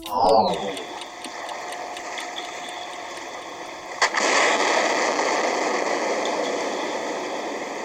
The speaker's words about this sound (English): That's the sound of air gun testing for the presence of oil and gas under the seabed.